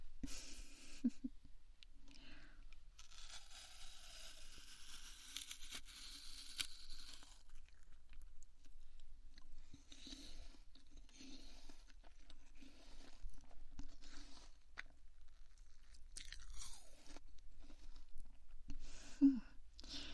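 Quiet, moist crunching as someone bites into and chews a sweet apple, many small crunches and wet chewing sounds repeating steadily throughout.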